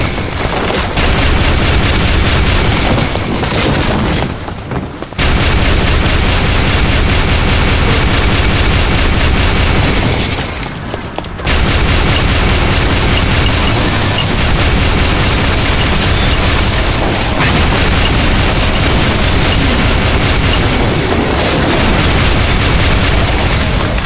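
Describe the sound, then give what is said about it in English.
A Gigabolt laser firing: a loud, continuous crackling and booming barrage resembling rapid gunfire and explosions, broken by two brief pauses before it resumes. “Flee before my Gigabolt laser!”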